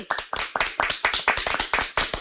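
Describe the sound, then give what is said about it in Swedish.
Audience applause for a technician at a live Swedish stage production: many sharp hand claps in a fairly even, brisk rhythm, crisp and clear with no talk over them. “Ska vi ta en applåd?”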